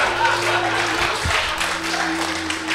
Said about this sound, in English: As the crowd is ripped into a frenzy, Filge feels a familiar feeling, and that is one of fermenting a revolution